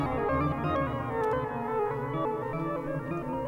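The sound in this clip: Yamaha DX7 FM synthesizer patches play sustained, richly harmonic tones, steady and fairly loud with no voices.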